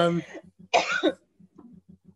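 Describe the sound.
A person coughs once in a harsh, breathy burst after a moment of talk, with a faint, steady low pulsing underneath.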